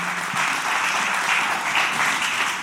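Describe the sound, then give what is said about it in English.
A church audience at a Good Friday service applauds to welcome online viewers, a steady, dense wash of clapping hands that holds at an even level throughout. “can we put our hands together and welcome everybody that's online that can't be here”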